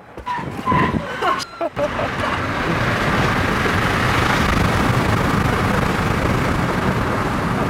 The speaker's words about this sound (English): I press the accelerator pedal all the way down. Release brake to launch, see?